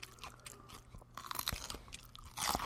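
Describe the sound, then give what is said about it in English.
Quiet chewing and crunching of food: irregular moist crunches and mouth sounds that grow louder near the end, with no talking. “I do find like eating sounds. It makes the food seem really tasty.”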